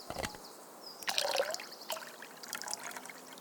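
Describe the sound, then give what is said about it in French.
Water poured from a water bottle onto soil, a faint trickling dribble with a few gurgling splashes running steadily for several seconds. “Maintenant, un peu d'eau.”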